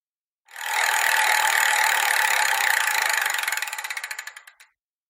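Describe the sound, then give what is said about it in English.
A prize wheel spinning with a loud whirring rattle of rapid clicks that gradually slow and spread apart over about four seconds before stopping, heard alone. “And we'll be chosen randomly as the wheel spins. So I'll give it a spin here and see what today's topic is.”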